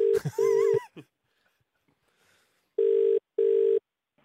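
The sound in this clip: Telephone dialing and ringing tone: a brief run of electronic dialing tones, then a pause and two even, steady ringback bursts, each under half a second, with no voices.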